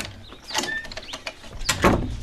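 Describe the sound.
A door being opened for a visitor makes a run of mechanical clicks, rattles and scrapes from the latch and hinges, ending in a louder clunk and rustle.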